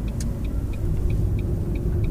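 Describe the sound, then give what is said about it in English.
A car driving on the road gives a steady low rumble, with a faint, regular ticking above it throughout. “Smooth driving. I'm going to go off map here a little bit. Let's just try a hard left here.”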